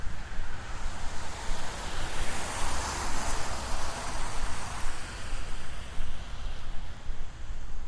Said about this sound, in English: Got some pretty good wind going too, so hopefully these windscreens are going to be good enough for us.